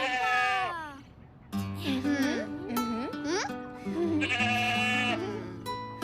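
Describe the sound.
Sheep and goats bleating at a petting zoo: several loud, wavering, nasal bleats in quick succession, with a brief quieter pause early on.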